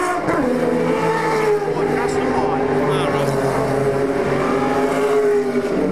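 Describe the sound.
SS Camaro race cars driving on a racetrack, their engines making a loud, continuous roar whose pitch wavers as they rev. A voice talks over the engine noise.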